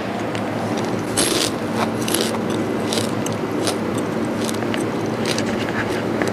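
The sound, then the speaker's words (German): Crunching as someone chews a large beetle: many crisp, brittle crackles and snaps over a continuous grinding noise, steady and fairly loud throughout with no talking. “was ich da gegessen habe, war ein ziemlich großer Käfer.”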